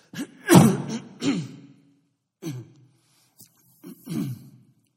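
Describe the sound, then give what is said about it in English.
Someone clears their throat in a few short, rasping bursts, the first ones strongest. Silent pauses separate the bursts, and no talk is heard. “Let me see if I can get my throat clear.”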